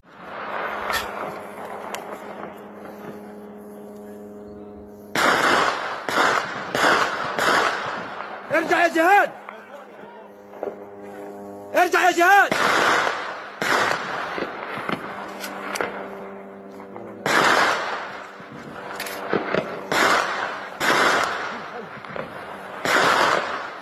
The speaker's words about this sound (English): Mahmoud Abu Salama recorded footage of Israeli gunfire on Jabalia camp on Sunday. He captioned this video, quote, "Despite talk of ceasefire in Gaza, this is the daily life of the residents of Jabalia camp in northern Gaza."